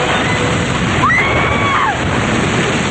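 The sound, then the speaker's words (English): Waves crash and wash over people running back toward a tower during a rescue. The loud, continuous rushing of water barely changes in level, and a brief high whining tone rises through the middle. “The others run back toward the tower, and waves wash over them.”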